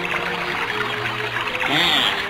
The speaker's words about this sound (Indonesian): Sementara itu di sebuah pancuran yang tidak jauh dari pondok itu.